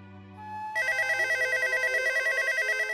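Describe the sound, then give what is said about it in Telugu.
A telephone rings as a call is placed. After a quieter opening with a low steady tone, a loud electronic ring begins and keeps trilling in a rapid, steady warble to the end, with no voices. “పోనీ నేనే ఒకసారి phone చేసి కనుక్కుంటాను”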